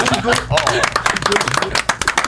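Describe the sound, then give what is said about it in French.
One person claps for themself, giving many quick, sharp hand claps in an uneven rhythm, mixed with lively talking voices. “Ah, bravo, bravo. Je m'auto-applaudis.”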